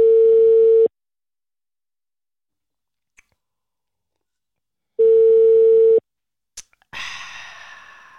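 A telephone ringing tone while a call is placed: two steady, mid-pitched beeps about four seconds apart, each under a second long, followed by a sharp click and a decaying rustling noise.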